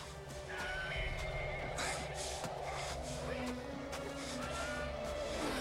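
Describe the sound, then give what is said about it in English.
A horse whinnies, caught in a wolf attack, through a dense, steady wash of background noise, with the neigh rising briefly above it early on and the whole scene fairly quiet. “Wolves attack one of the horses.”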